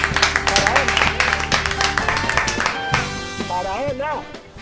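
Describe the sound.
Applause from an audience at a veterinary congress, with a steady patter of clapping under excited voices calling out and cheering throughout.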